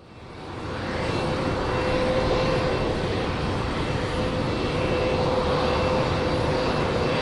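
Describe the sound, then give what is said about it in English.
Engines of a huge Russian Antonov AN-225 airplane at Kabul airport make a deep, steady drone. A broad rumbling roar carries a faint sustained whine; it builds over the first second, then stays loud and even throughout. “Over on the other side the runway, I can see the AN-225. There's over 12,000 people both inside the huge Russian airplane”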